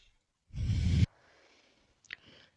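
A slow exhale during a breathing exercise: one loud, airy breath out lasting about half a second that stops sharply, followed by near silence and a faint click with soft breathing.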